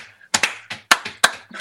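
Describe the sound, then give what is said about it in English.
Rhythmic hand clapping for a fourth-grade step team routine: a quick series of sharp, crisp claps in an uneven, syncopated pattern, with short pauses between groups and no talking. “clapping and trying to memorize these steps, which are rhythmic”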